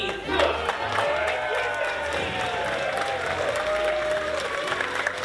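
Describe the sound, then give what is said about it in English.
Audience at the Laugh Floor comedy show applauds and cheers for the monster of ceremonies: continuous, even clapping mixed with whoops and whistles, steady in volume throughout. “Ladies and gentlemen, welcome to the Laugh Floor! And now, make some noise for your monster of ceremonies, me!”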